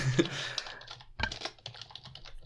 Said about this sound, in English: And I'm typing it in the wrong place.